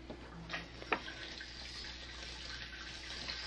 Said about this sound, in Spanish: Voy a lavar los trastos de loza